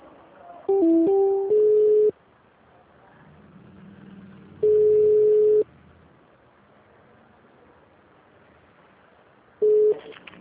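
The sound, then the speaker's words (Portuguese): Telephone tones as a call is transferred to HR: a quick run of stepped beeps at shifting pitches, then one long steady tone, then a short final tone, with faint line hiss between them. “Eu vou transferir a ligação com o RH, tá?”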